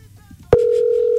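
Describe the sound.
Telephone tone while calling someone, a click followed by a steady, loud, unbroken electronic tone that starts after a faint low murmur.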